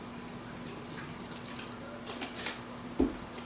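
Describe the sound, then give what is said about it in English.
Liquid trickles and drips as vinegar and lemon juice are poured into a batch of food being prepared for blending. It is faint over a steady low hum, with one small splash near the end. “To this, I'm just going to eyeball some vinegar, some lemon,”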